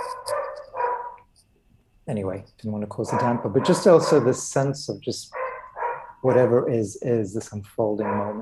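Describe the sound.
Dogs bark during a relaxed group conversation. A few harmonic yelps come mostly near the start, and more barks surface intermittently beneath a person speaking at length.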